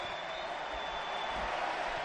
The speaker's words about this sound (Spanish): El pueblo también aplaude a Robert Lewandowski